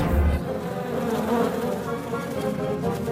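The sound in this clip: Bees buzz around a hive in a continuous, even drone that stays steady and fairly full without pause.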